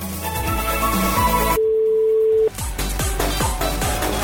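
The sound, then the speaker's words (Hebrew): A telephone dial tone sounds as a call is placed: one steady tone lasts about a second, with music before it and again after it stops. “עכשיו אנחנו הולכים לחייג ולהפתיע את המאזין או המאזינה האחרונים.”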